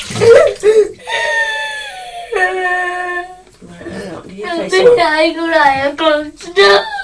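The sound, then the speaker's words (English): A young child crying in a pool, loud high-pitched wails broken by short pauses, some drawn out and others wavering up and down in pitch. “Now, this is the last one. Stop crying.”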